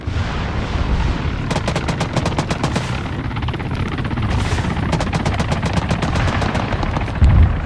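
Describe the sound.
Rapid bursts of machine-gun fire from a war video game set in the battle for Kyiv, crackling in repeated fast volleys over a dense, constant roar that stays loud throughout.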